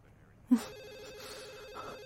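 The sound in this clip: A telephone rings with a warbling electronic tone that starts abruptly and holds steady. The ring sounds thin and fairly faint over a quiet background.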